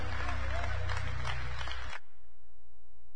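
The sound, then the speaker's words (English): A church audience claps during worship. Dense hand clapping over low sustained music lasts about two seconds, then cuts off abruptly, leaving only a quiet steady hum. “Give God a hand clap.”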